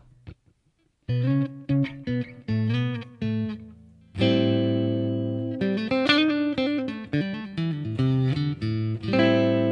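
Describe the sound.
An electric guitar with a Strat-like single-coil tone from a center punch pickup plays alone. First comes a run of short plucked notes and phrases, then a ringing, sustained chord, followed by more held and picked notes at moderate volume.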